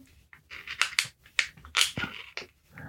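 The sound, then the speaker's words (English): A metal can's top is being cut open, making a series of short, sharp crunching and rasping bursts at an uneven rhythm, each separated by brief quiet gaps. “Especially when it's a can like this, so you can feel it cutting.”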